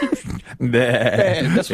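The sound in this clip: A person imitates a sheep with a drawn-out, quavering bleat, loud and wobbling in pitch, following a brief burst of voice.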